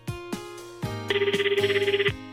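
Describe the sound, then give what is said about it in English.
A telephone rings and wakes someone just after a run of holidays. It is a rapid, warbling electronic ring of many quick even pulses, with a few dull thumps before and around it and no talk. “Just after consecutive holidays, Ken is woken by the phone.”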